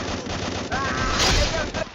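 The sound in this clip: Video game gunfire, a dense continuous rattle of rapid shots that swells in the middle and eases near the end, with a voice talking over it.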